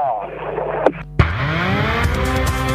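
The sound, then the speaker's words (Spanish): A rally car engine runs at the start line with a steady, buzzy harmonic drone, broken midway by two sharp clicks, then revs back up, its pitch climbing and holding. “ya encendió también William Bull, el motor en marcha para Joaquín Cortina”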